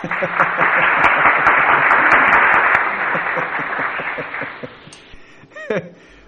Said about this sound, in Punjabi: ਵਾਹ ਜੀ ਵਾਹ, ਤਾਲੀਆਂ ਦੇ ਸਾਥ ਸਵਾਗਤ।